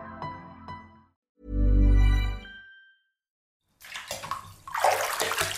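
Bathwater splashing and sloshing as a bath fills, a rough, rushing wash that swells over the last couple of seconds after a few quieter sounds and a short pause.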